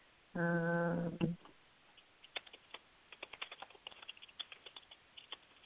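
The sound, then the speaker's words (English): Typing a note on a computer keyboard: many quick, uneven keystrokes clattering in irregular bursts at moderate loudness, with no talk over them. “Let me just make a note right here so I remember to add it.”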